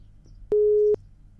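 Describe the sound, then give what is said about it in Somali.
Busy-signal tone on a telephone line that has just been cut off: a single steady mid-pitched beep lasting just under half a second, loud and alone between quiet stretches. “Qadka telefoonka ayaa dhigaysaasi ka go'ay”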